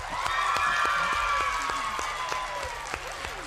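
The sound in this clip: Loud, dense applause and cheering from a secondary school supporters' group from Torrejón de Ardoz: sustained rapid clapping with voices calling out over it, holding steady throughout.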